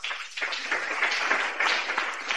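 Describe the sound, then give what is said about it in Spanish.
Applause fills a Pentecostal church in Olmos: a dense, steady wash of many hands clapping together, holding an even level without a break from start to finish. “¡Aplausos para Cristo Jesús!”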